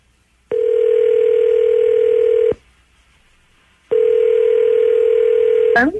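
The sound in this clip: Telephone call being dialed: two long, loud, steady line tones separated by a silent pause, followed by a brief burst of sound at the very end.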